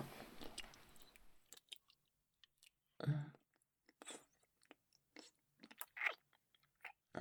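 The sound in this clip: Close-up ASMR tongue-licking mouth sounds: faint, wet smacks and clicks scattered irregularly, with a rougher burst of noise at the start and a few louder smacks later on.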